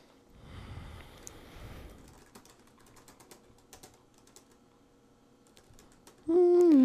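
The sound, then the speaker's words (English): Typing on a computer keyboard, a long run of rapid, uneven key clicks, busier at first and then sparser, until a loud sustained tone cuts in at the very end. “I'm going to type it and read it backwards.”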